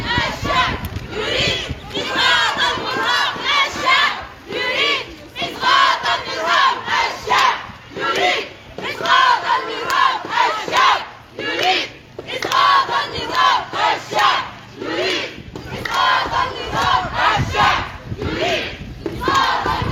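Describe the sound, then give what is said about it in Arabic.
Protest marchers chant slogans in unison: many voices shout loud, rhythmic phrases that repeat in bursts with short pauses between them. “وردد المشاركون في الموكب هتافات”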